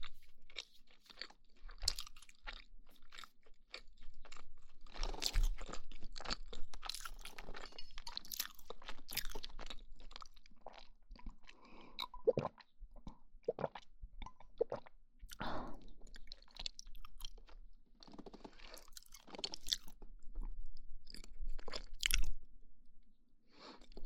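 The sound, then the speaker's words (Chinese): Chewing of a crispy yet soft food: many moist crunches and bites come in uneven clusters, some sharp and loud, others faint, with short quiet gaps between them. “酥酥软软，太好吃了”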